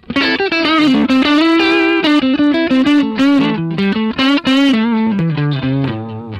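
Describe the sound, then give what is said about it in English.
Electric guitar plays through an amp into two 12-inch CTS Super Reverb speakers, one ceramic and one Alnico, in a loud, distorted lead line of many sustained and quick notes, with no talking. “So this is a ceramic and an Alnico from from a super reverb.”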